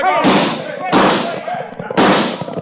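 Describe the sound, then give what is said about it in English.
Three loud gunshots ring out as mounted road agents swoop down on a frontier town after a Wells Fargo gold shipment. Each blast trails off in a long, noisy decay, and voices are heard between the shots. “And then they swoop down, guns blazing.”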